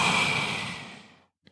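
A deep breath blown out during a guided breathing exercise, one long, steady exhale that starts strong and fades to silence after about a second, followed by a faint, brief click.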